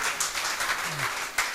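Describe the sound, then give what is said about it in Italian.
Applause from a church audience during an Italian service, a brief steady patter of many hands clapping together for under two seconds, moderately loud throughout. “Applaudiamo.”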